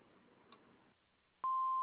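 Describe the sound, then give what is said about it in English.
An answering machine beep sounds after the recorded greeting: a single loud, steady high-pitched tone that starts abruptly after a quiet pause and holds to the end. “Please leave your message after the beep.”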